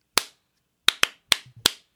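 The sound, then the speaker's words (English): Sharp hand claps from one person: five dry, crisp smacks spaced unevenly across two seconds, each ringing out briefly into near silence. “I'm going to do a little clap real quick.”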